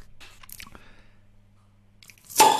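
A pressurised bottle of Grolsch beer is opened: quiet handling clicks and rustles, then a sudden loud burst of fizzing, hissing gas release at the end.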